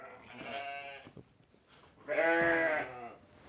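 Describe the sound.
Sheep bleat in a barn holding a flock with a lamb: two strong, harmonic bleats separated by a quiet gap, the second louder and fuller than the first.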